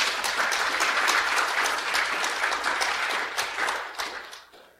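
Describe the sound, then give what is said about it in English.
Applause from a church audience greeting a couple, brisk, dense clapping that holds steady and loud before thinning out and fading near the end. “and so we love you, and just give them a hand, okay, there.”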